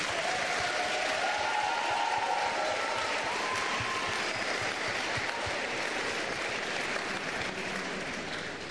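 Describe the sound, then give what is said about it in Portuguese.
A church audience applauds in a dense, continuous wash of many hands clapping, holding steady and loud for several seconds before easing slightly at the end. “Put your hands together for Jesus. Palmas para Jesus.”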